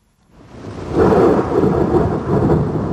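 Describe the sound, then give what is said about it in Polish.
Loud thunder during a summer storm rises from near silence into a deep, heavy rumble within about a second. It stays strong and rolling to the end, with a broad wash of noise above the low roar. “Jak są bardzo głośne pioruny, to strasznie się boimy.”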